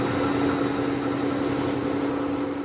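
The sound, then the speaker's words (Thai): Lab equipment producing biodiesel from algae gives off a steady, even mechanical hum with a fixed droning tone. It holds at one level throughout, with no voices. “และนั่นก็เป็นเสียงการผลิตน้ำมันไบโอดีเซลในห้องทดลองโดยใช้สาหร่ายเป็นวัตถุดิบ”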